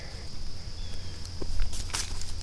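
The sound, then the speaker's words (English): Footsteps climbing up a riverbank: a few soft, scuffing steps over a steady, low background, with the clearest steps near the end. “I'm climbing up on the opposite bank.”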